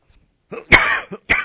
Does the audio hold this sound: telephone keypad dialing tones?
no